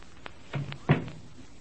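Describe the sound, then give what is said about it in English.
A door being closed in a library, heard as two soft thuds, the second louder than the first, fairly quiet overall. “You must be very quiet. All right. Now let me close this door.”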